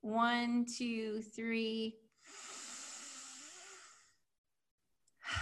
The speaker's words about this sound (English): So on the count of three, everybody, let's take in that deep breath.